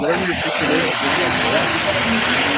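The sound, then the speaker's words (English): A diesel superstock pulling tractor, a champion machine at a tractor-pull competition, roars with its engine at full power. The sound is a loud, steady, dense roar that holds for the whole clip, with talk over it. “Jerry Zweibauer driving last year's Grand National Diesel Superstock Champion tractor”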